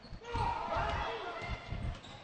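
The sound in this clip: A basketball dribbled in the backcourt during a women's game gives repeated dull, low bounces under steady commentary.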